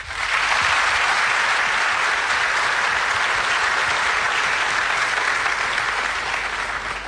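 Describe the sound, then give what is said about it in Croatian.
Audience applause greeting performers at a music event, a sustained, even roar of clapping that stays strong throughout and eases off slightly toward the end. “Pozdravimo ih velikim pljeskom.”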